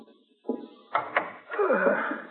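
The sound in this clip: A door being opened as police officers arrive at a home: a few sharp clicks, then a longer creaking, scraping sound that carries on to the end, moderately loud.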